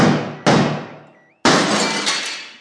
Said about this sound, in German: Er berührt eine Wange der Toten, läuft dann weiter, überlegt nicht lang, springt durch ein zersplitterndes Fenster ins Freie.